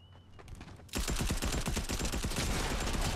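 Rapid gunfire from a gun in the Fortnite video game: after a quiet start, many fast, loud shots burst out in a dense, continuous volley.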